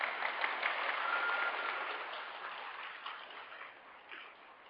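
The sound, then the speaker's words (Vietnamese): Audience clapping, a dense, steady patter of many hands that holds fairly loud at first and then gradually softens toward the end. “Rồi, đừng có vỗ tay nữa nha.”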